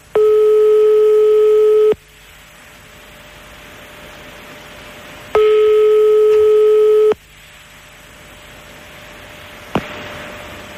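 A telephone call being placed: two long steady ringback tones, each under two seconds, separated by a few seconds of quiet line hiss, followed by a faint click near the end.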